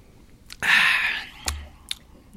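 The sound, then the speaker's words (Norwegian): Chewing while tasting a food sample during a taste comparison. A dense, moist, crunchy burst of mastication is followed by two sharp, brief mouth clicks. No talking. “Nå skal jeg smake litt på X en gang til, bare for å dobbeltsjekke.”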